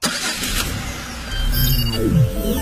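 Car engine rumbling steadily while the car is driven, loud and continuous throughout, with a brief tone sweeping downward in pitch near the end.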